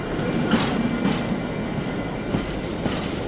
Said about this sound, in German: wir überholen gerade einen Zug mit lauter Autos drauf. Mensch, ist der langsam.